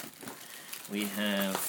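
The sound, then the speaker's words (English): Crinkling of a paper packing slip handled while unpacking a cardboard parcel: soft, moderate papery rustling, with a brief tonal, voice-like sound over it partway through. “We have a piece of paper, which is presumably a packing slip.”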